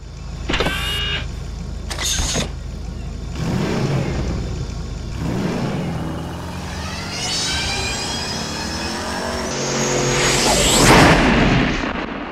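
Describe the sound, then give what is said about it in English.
A whooshing time machine sound effect: mechanical whines and warbling, sweeping tones rise over a constant rumble, swelling louder toward the end. “let's jump in our IMDb time machine this week and see where it takes us.”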